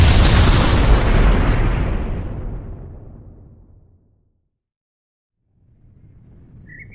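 A rocket launching into the sky, with a loud, broad roaring blast at the start that fades steadily into silence over about four seconds, followed by a low rumble swelling back in near the end.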